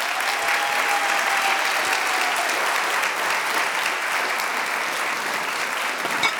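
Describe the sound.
An audience at a Juneteenth brunch applauds as the CEO of the King Center is welcomed to the stage. The clapping is full and steady, holding an even level from start to finish.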